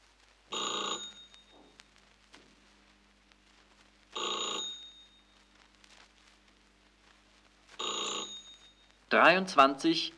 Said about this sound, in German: Leonard ruft Konrad wegen des Termins an.